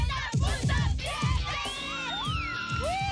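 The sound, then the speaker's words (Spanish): Girls shouting loudly from a car: many overlapping high-pitched yells, screams and whoops that stay loud and continuous throughout. “las invito a gritar”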